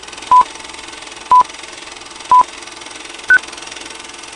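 Four short electronic beeps mark a transition, evenly spaced about a second apart, the last one pitched higher than the rest, over a faint steady hiss.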